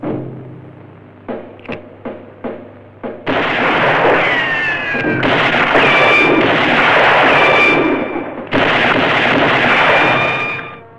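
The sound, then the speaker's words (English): Pistol shots as a gunman fans the hammer with a bandaged hand, firing at a fixed point on a sheet of metal. Five sharp bangs come in quick succession, followed by a loud, sustained roar. “He fans the catch with his bandaged hand, aiming at a fixed point on the metal, producing one large dent.”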